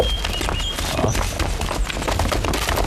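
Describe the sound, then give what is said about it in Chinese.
Hooves pound from a band of mounted riders carrying weapons. Many horses make a dense, continuous, drumming clatter at a steady loudness. “悟空，你看，前面有一帮人马，手里还拿着兵器。”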